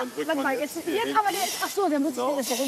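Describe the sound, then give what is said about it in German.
A vacuum lifter hisses as it handles suitcases being loaded, an airy hiss rising in bursts beneath people talking. “Wenn besonders viele Koffer zu verladen sind, kommt ein Vakuumheber zum Einsatz.”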